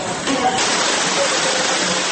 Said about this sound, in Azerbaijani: Qəfil yağış və daha sonra doluya çevrilən yağmur açılış mərasimini yarımçıq qoydu.